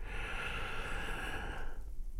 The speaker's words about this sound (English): Here we go with the first one. Big breath in and out.